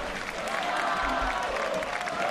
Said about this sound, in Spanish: La gente está aplaudiendo aquí porque acaba de llegar Donato.